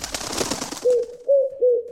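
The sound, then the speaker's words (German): A dove sound effect opens with a burst of rustling wing flutter, then three soft, low coos follow in an even rhythm. There is no talking. “Das ist es, unser Ticket-Täubchen, das gurrt und flattert.”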